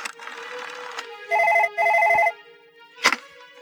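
A telephone rings after a number is dialled: one double ring of loud, trilling bell bursts, then a quiet pause and a single sharp click.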